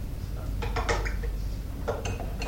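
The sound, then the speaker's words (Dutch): A spoon stirs in sugar, clinking against the container in two short bursts of light, ringing taps over steady low background noise. “even roeren, hè, met de lepel.”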